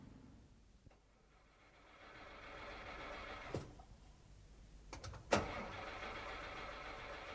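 A car engine cranks but fails to start. Faint low mechanical churning swells, then a few short sharp clunks and a scrape break through near the end.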